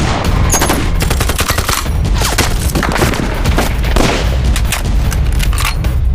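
Loud, rapid gunfire rattles without pause in a battle, dense machine-gun bursts mixed with heavier booms and thuds, staying harsh and intense from start to finish.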